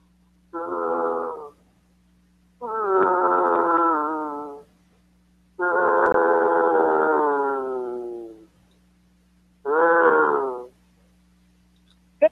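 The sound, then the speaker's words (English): A man imitates a Wookiee roar in a roar contest, giving four long, growling, howling cries with pauses between them, closer to a Tauntaun than a Wookiee. “You know, I don't know if that was actually a Wookiee. What was that thing? Was that a Tauntaun? Yeah, that sounds more like a Tauntaun.”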